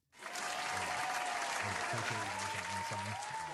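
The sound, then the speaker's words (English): Applause greeting a guest introduced on a show: steady, dense clapping starts abruptly and continues evenly for a few seconds without a break. “So without further ado, ladies and gentlemen, make some noise for my boy, Grayson Moore.”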